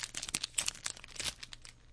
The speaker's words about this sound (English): You can hear me crinkling the pack, opening it up now.